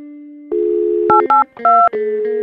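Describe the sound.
A telephone number is dialed on a phone line: a steady dial tone, then a few short touch-tone beeps in different pitch pairs. Loud and clean, with no voices.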